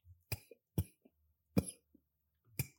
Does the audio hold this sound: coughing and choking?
yes